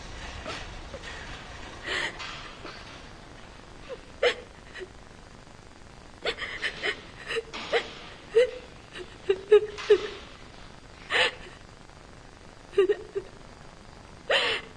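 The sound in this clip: A woman cries in bed with a bandaged hand and a drip: soft whimpering sobs and catching, hiccup-like breaths come in a series of short, irregular bursts over a quiet background.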